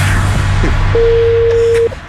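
A telephone line tone sounds while a call is placed about an online classified ad: a single steady, clean mid-pitched beep lasting about a second over a low background hum, with no voices.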